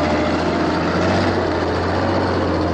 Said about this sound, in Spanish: Por la mañana, un camión de la basura circula por las calles.